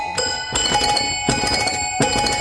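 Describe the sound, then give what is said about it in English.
A trill on an upright piano with its lid removed gives bright, chiming tones that ring on, with rapid repeated notes and a few fresh attacks along the way. “I can really trill on this. This piano, this other one, this is an upright piano.”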